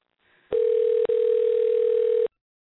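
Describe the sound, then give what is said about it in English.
A telephone tone sounds as a call is dialed: one steady electronic pitch held for about two seconds, broken once by a very brief gap, then cut off abruptly. “I'm going to call him. Let's see how this works. Okay. We're dialing.”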